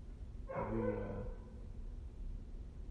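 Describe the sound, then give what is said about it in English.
A voice imitates a baying hound with one drawn-out, harmonic howl of under a second, standing alone over a low, steady background hum. “The dogs are barking. The dogs are barking for us.”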